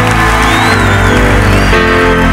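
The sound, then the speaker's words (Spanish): Applause and cheering from a church audience, a dense loud wash of clapping and shouts with a sustained tonal voice or instrument line running through, brief and unbroken. “Dale un aplauso al Señor. Dale un aplauso al Señor.”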